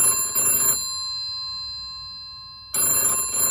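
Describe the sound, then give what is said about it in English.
A telephone rings at a cafe. Two loud bursts of bright, trilling bell ringing are separated by a long silent pause. “At 7:20, the telephone at the cafe rang.”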